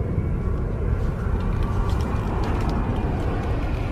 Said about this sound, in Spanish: Ambos se levantan de su silla. El avión está muy cerca se cubren el rostro.